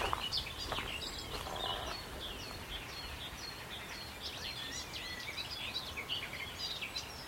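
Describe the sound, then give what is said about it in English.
A garden warbler sings on Sugar Loaf mountain beside a deep rutted path between overgrown hedges, pouring out a faint, continuous run of quick, high chattering notes over a steady hiss. “Ah, it's a garden warbler here. Sort of chortling away.”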